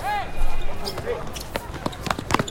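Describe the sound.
Basketballs bounce during a youth team's after-school practice. Several sharp thuds ring out irregularly while players talk and move on the court.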